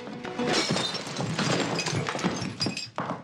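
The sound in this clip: Glass bottle smashed over a man's head in a fight at an open dressing-room window: a loud, sustained shattering crash full of crackling, tinkling fragments that lasts about three seconds.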